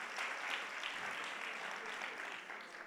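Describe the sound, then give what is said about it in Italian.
An audience at an evening gathering claps for parents who are standing, a dense, steady patter of many hands that holds evenly throughout and stays fairly quiet. “Vogliamo fare un applauso a tutte queste persone.”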